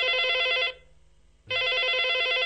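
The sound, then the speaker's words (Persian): A telephone bell rings in two long, steady bursts with a brief silent pause between them. The ringing is loud and heard on its own, with no voices. “من تلفن رو بردارم.”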